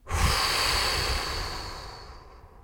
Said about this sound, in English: I invite you to take a big inhale and exhale through your mouth, blowing.